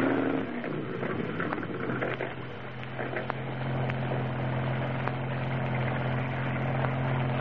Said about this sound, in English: Here comes a police boat. We better stop.